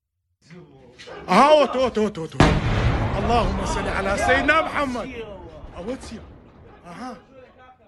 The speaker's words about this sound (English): Iran is openly firing missiles into this area, and they are targeting places where American consulates are. Here is a little bit of the video.